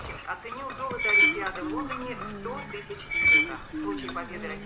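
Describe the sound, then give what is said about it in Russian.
A spoon scrapes and drags across an empty plate at a table, giving soft metallic rubbing with light clinks and two brief squeaky strokes, fairly faint throughout. “Парень сидит за столом, водит ложкой по пустой тарелке.”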